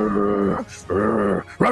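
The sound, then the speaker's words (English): A person's voice imitates the low growl of a big black and red Doberman. The throaty rumble comes in three bursts, and the last one is short. “big black and red Doberman kind of pad its way from the library looking for the commotion, sees the door open, moves up to it, and begins growling”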